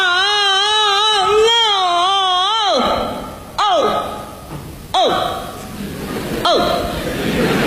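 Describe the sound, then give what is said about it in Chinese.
A voice imitates the crying of an old-man role in Peking opera. A drawn-out, wavering wail gives way to three sharp, falling sobbed cries. “你比如说这个京剧里的老生，和老生一哭又好看又好听。 什么样啊？ 一哭起来这样。”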